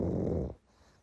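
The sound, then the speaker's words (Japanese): A sleeping pug snoring: one low, rough snoring breath lasting about half a second, then quiet. “今日もパグは僕らの横でいびきをかきながら気持ちよさそうに眠っている。”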